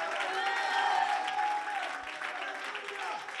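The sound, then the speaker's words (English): An audience claps hands during a church service, with quick, moderate clapping under raised voices calling out over it throughout. “Oh, clap your hands in this place.”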